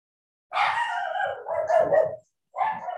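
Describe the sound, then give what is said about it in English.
Dogs barking and baying in drawn-out, tonal bursts: one long run of overlapping yelps, then a short pause and another burst, fairly loud with no talk. “we have to put my dogs in a different spot so that they're not so barking.”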